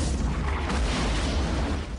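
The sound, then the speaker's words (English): Deep rumbling explosions in a village as attacking crawler vehicles open fire, a fireball bringing down a large structure. The roar is continuous and low, booming at a steady level for two seconds. “A gigantic fireball takes down a vast structure in the center of the village. Locals run for cover as more explosions blossom around them.”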